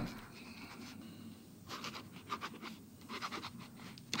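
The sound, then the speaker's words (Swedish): Pen scratching across a notebook page while someone writes or draws, a faint run of short, irregular strokes that grows busier in the second half. “Precis uppslag på höger sida kan mm. du skriva. Eller rita något eller ja.”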